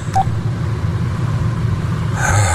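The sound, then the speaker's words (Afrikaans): Steady low engine rumble of a car driving into an airport arrivals area, with a brief high beep near the start and a little brighter noise toward the end. “ek ry nou hier in by die lughawe se arrivals”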